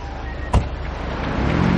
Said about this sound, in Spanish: Lo meten en un coche patrulla y se lo llevan.